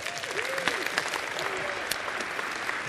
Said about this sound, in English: Let's give these guys a hand.